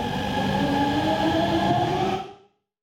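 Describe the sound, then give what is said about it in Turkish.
A metro train runs at speed, a new line equipped with a domestic signalling system and built for 120 km/h. A steady, loud rumble carries a droning tonal whine, then fades out quickly near the end. “Metrolar Aselsan tarafından üretilen yerli sinyalizasyon sistemiyle donatıldı. Saatte 80 kilometre hızla işletilen klasik metrolardan farklı olarak saatte 120 kilometre hızla seyredecek.”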